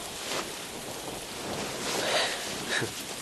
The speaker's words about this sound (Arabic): المطرة قوية كتير.